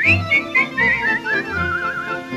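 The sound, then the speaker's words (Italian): A person whistles a waltz tune, a clear, bright melody of short phrases that lilt up and down and then settle into a longer, steadier line. “Chi a fischiettarlo si proverà, ogni pensiero gli passerà.”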